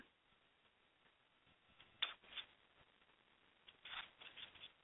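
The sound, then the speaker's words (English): Oracle cards are shuffled and pulled for a reading, making soft, irregular rustles and flicks with a couple of brief, slightly louder bursts of shuffling. The whole passage stays very faint, with no talking. “So I am going to pull some cards for you, or a card.”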